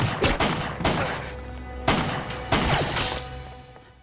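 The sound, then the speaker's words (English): Several sharp gunshots from a gun fired carelessly and at random in a TV drama scene, loud irregular bursts with noisy tails ringing between them. “The way he shoots the gun around, so carelessly, so randomly”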